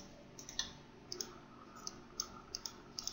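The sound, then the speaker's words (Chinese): A computer mouse button clicks, making a quiet string of crisp, sharp ticks that often come in quick pairs and are spaced irregularly over a faint steady hiss. “专业版软件的话，点鼠标左键可以放大，右键可以缩小”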